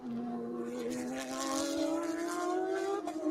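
Identical Pro-Am race cars drive through a chicane near the end of a lap, giving a faint, steady engine whine that rises gradually in pitch and then dips briefly near the end.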